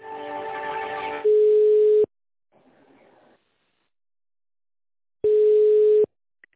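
Telephone line tones play while a call is transferred: two steady, mid-pitched beeps, each under a second long, separated by a long silence, after a brief muffled, noisy sound at the start.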